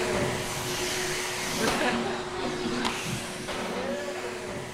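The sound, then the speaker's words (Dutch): Vacuum cleaner running while a church is tidied, a continuous whining drone with a steady tonal hum and slight shifts in loudness as it moves. “Nou, ik ben aan het stofzuigen. Ik moet de kerk netjes en schoon achterlaten.”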